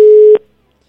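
Steady mid-pitched telephone tone from an outgoing call that rings out unanswered, held for about a third of a second before a brief click cuts it off, then silence.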